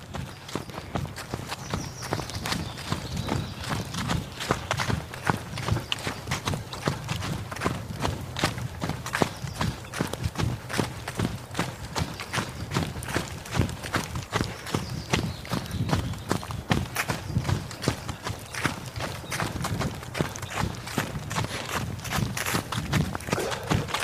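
Footsteps of people setting off at a run toward a destination, a fast, steady stream of rhythmic thudding strides that keeps an even loudness throughout with no pause.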